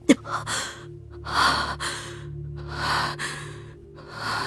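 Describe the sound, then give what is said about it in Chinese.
Heavy panting from an exhausted man worn down in a fight: a few loud, drawn-out gasping breaths rise and fall in a slow, uneven rhythm with soft pauses between them. “他冷冷地看着唐三，大口大口地喘息着，看上去似乎已经有些无法支持了。”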